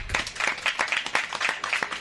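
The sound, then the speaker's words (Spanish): Audience applause: a short burst of brisk, steady clapping from a small crowd, loud and even throughout with no voices over it. “Bueno, un aplausito para Lucio.”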